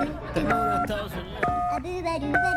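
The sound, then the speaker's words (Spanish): Telephone keypad dialing tones ring out while calling a US number: a few short, steady, evenly pitched dual-tone beeps, each held briefly, with other sound continuing underneath. “Le voy a marcar de inmediato, amigo. Vamos a marcarle de inmediato al presidente. Número de Estados Unidos.”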